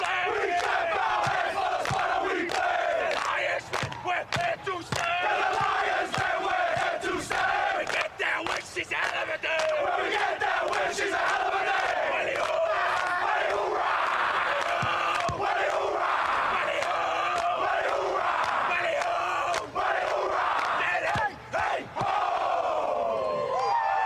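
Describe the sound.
A large stadium crowd sings a sports team's song together, a loud, sustained roar of many voices carrying chanted melodic lines without pause.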